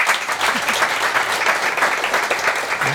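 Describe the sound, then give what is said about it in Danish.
Audience applause fills a hall at a Dansk Sprognævn event in Bogense: dense, steady clapping from many hands, holding an even level from start to end with no talk over it. “Må jeg se og høre en applaus på det?”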